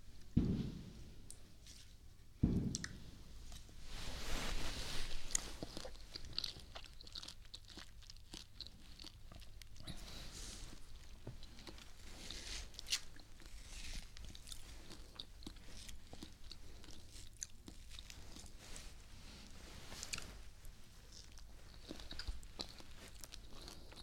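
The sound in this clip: Someone bites and chews something sweet, close to the mic. A few crunchy bites near the start give way to steady, faint, moist chewing and smacking that continues throughout.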